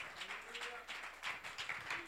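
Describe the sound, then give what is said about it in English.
A church worship audience claps their hands in a quick, steady rhythm. The claps are fairly faint, with a few voices mixed in. “Clap your hands to him. Praise God. Hallelujah. Glory.”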